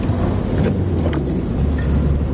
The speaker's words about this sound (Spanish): La furgoneta se incorpora a una carretera secundaria.